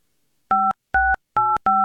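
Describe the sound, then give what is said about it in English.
Telephone keypad tones as a number is dialed: four crisp, evenly loud electronic beeps in quick succession, each a short steady two-tone chirp separated by brief silences. “I hope I dialed that right.”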